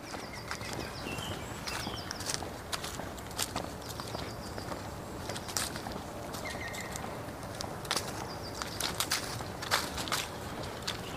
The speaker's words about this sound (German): Deswegen einfach erstmal weiter spazieren gehen, den Kreislauf in Gang bringen und die frische Luft genießen.